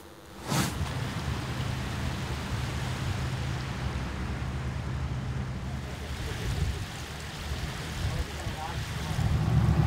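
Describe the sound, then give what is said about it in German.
Steady engine drone and rushing wind as a boat leaves the Elbe Side Canal onto the River Elbe, a continuous low rumble that swells slightly near the end. “Wir verlassen jetzt den Elbe-Seitenkanal und fahren direkt auf die Elbe.”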